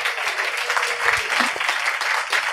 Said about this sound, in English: We have a very special guest with us this evening. Everybody, please give it up for Ned Bolting.